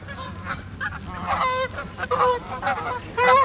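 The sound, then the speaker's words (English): Honking of a flock of about twenty geese flying overhead by a seawall: rough, nasal, moderately loud calls that overlap in an uneven, repeated chorus. “oh my gosh, like 20 geese just flew over me. I don't know if you guys could hear them.”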